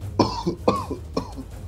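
Coughing voiced for a character in a tabletop role-playing game: three rough, evenly spaced coughs, each trailed by a short breathy catch, moderately loud with no talk around them.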